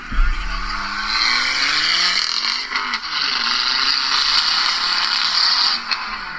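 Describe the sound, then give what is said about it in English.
Engine and exhaust of a Volvo V60 small wagon: a loud, steady roar with a low rumbling note throughout, dipping briefly near the middle before building again. “V60 hatchback wagon. It's a wagon. It's a wagon. It's a small wagon. It's not a wagon wheel, not your favorite song. The Volvo V60 wagon.”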